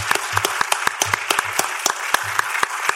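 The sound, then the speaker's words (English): An audience at CollectiveCon claps for comic colorist Mike Spicer, a few hands producing sharp, distinct claps in a loose, uneven patter rather than a dense roar. “CollectiveCon, let's make sure we give it loud and proud for Mike Spicer. Let's give it up for Mike Spicer.”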